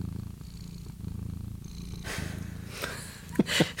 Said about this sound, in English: I don't know if you guys hear the purring in the microphone.